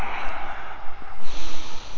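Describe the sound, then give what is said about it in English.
Exhaled breath during a yoga forward fold: a steady, breathy rush of air lasting about two seconds, with a short dip midway, and no talking. “Exhale, hug your inner thighs together. Inhale. Exhale, fold down.”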